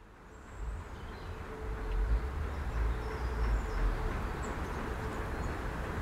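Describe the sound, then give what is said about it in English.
A train passing through a deserted, abandoned station, a broad low rumble that swells from quiet and then holds steady, with faint high chirps above it. “If you can hear that, that's the sound of a train coming in”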